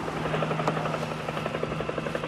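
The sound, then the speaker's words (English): A helicopter flying over the Hudson River, its rotor beating in a steady, rapid thumping rhythm over a continuous engine drone. The sound is fairly soft and even, with no voices. “Archival footage shows a helicopter soaring over the river”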